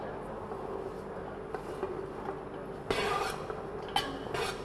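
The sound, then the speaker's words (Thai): Faint stirring of a pork crackling mixture in a pan gives soft, quiet scraping and light clinks of utensil against cookware, with a few sharper knocks standing out near the end. “คนให้ส่วนผสมนะครับเข้ากันนะครับ”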